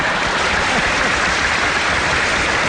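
Audience applause, a thick, continuous hiss of many hands clapping that stays loud and even for the whole stretch with no breaks, almost like heavy rain.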